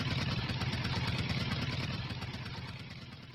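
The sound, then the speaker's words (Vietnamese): A truck engine runs as the vehicle pulls up and stops at the gate of a district hospital, carrying patients in its cargo bed. A steady, mid-pitched chugging rumble with fast rhythmic pulsing slowly fades, heard alone. “Chiếc xe dừng lại trước cổng của bệnh viện huyện.”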